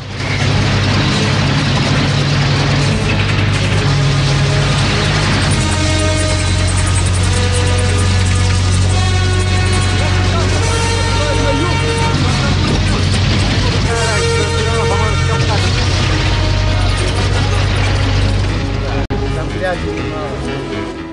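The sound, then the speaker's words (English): A tank rolling through a camp, with a dense, continuous mechanical clatter of tracks and grinding gears over a heavy low rumble. The sound stays steady and loud throughout. “He grabs hold as the tank passes over him. Rambo clings to the underside of the tank as it rolls through the camp.”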